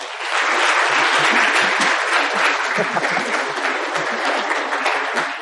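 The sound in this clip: Applause from a church audience welcoming a visiting pastor: dense, steady clapping that stays loud and even for several seconds.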